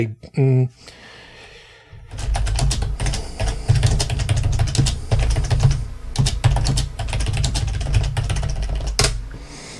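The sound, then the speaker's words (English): Typing on a computer keyboard: a rapid, uneven run of many sharp key clicks continuing for about eight seconds after a brief opening sound, over a low hum. “I'm going to type this into the host's chat because”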